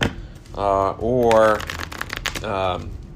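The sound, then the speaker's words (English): A deck of game cards shuffled back together for a mulligan in a card game, with a burst of quick, crisp clicking riffles between stretches of a person talking. “I am going to shuffle this back in Mulligan.”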